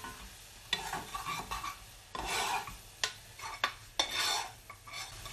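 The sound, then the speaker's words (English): Tallow goes into a pot with sugar and beer while making blacking balls, giving rasping scrapes and light metallic clinks of a utensil against the pot. Several sharp, uneven strokes come with a faint sizzling hiss underneath, and no voices. “I'm just adding the tallow.”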